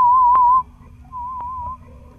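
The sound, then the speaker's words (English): Hearing-test tones from an audiology clinic at Utah State University: two steady, pure whistle-like beeps at the same mid pitch, each about half a second long with a short pause between. A faint click falls within each tone, over a soft low hum. “What you just heard are two types of hearing tests conducted through USU Student Academy of Audiology.”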